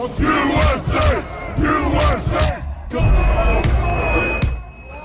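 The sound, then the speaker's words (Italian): Loud crowd of protesters at a demonstration, many voices shouting and chanting together in repeated surging bursts over a dense, continuous roar. “stiamo manifestando per la nostra libertà adesso”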